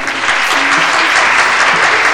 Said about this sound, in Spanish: un aplauso.